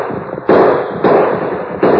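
Three loud gunshot bursts from a radio drama sound effect in a horseback gunfight. Each blast hits hard and trails into a long rumbling decay over a constant noisy background.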